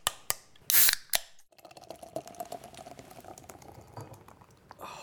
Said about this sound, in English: Crack open the Guinness.